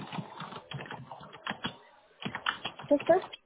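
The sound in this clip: Typing on a computer keyboard while writing up a request: a busy run of quick, light key clicks in uneven bursts, with a voice talking over them.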